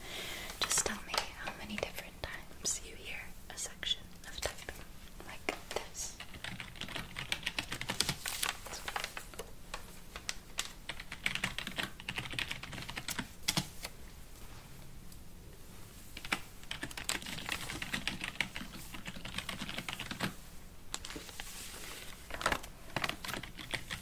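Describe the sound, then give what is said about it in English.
Steady computer keyboard typing during an ASMR session, many rapid soft clacks running the whole time beneath quiet whispering. “I want you to close your eyes and ignore any typing you may hear.”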